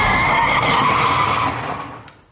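Tires screech as a car brakes hard and skids to a stop, a loud sustained squeal that holds steady, then tapers away and fades out in the final half second.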